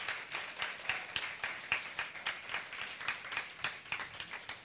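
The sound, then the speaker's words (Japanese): Audience clapping for pastors who have stood up at a church gathering in Japan: many faint, fairly regular claps in a steady pattern, with no talking. “拍手してください、お願いします”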